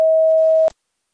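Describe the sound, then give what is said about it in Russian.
A voicemail recording beep sounds once as a single steady mid-pitched electronic tone lasting under a second, then cuts off into silence. “После сигнала, пожалуйста, запишите свое сообщение. Для окончания записи нажмите любую клавишу или перестаньте говорить.”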